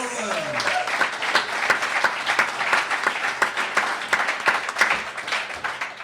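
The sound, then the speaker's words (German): Live-audience applause at a comedy game show: dense, steady clapping that runs the full six seconds without a break, with a few voices briefly heard at the start. “Applaus!”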